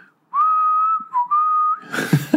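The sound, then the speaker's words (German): A person whistles while walking along a promenade, holding one clear, steady tone with a short dip partway through. The tone then breaks into breathy, noisy puffs. “läufst du pfeifend über die Promenade”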